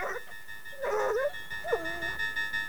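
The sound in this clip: A dog whimpers between two firemen sitting on a fire engine on a runway: two drawn-out, wavering whines with a fainter sound just before them, over a steady hum.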